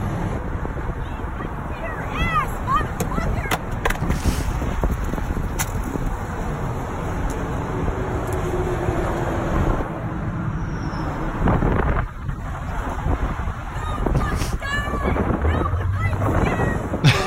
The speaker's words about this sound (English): By the way, this is Massachusetts, and I'm driving with a Trump flag.